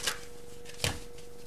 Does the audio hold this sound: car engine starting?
no

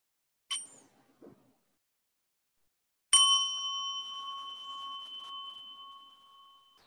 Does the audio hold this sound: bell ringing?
yes

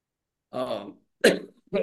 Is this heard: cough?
yes

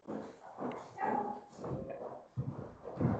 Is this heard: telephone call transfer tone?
no

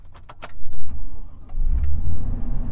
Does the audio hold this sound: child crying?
no

